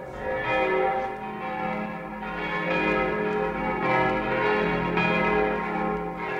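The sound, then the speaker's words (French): Bells of Notre-Dame cathedral ringing out the end of Sunday mass, a dense, loud peal of overlapping strokes that swells and rings on continuously without pause. “les cloches de Notre-Dame sonnent la fin de la messe.”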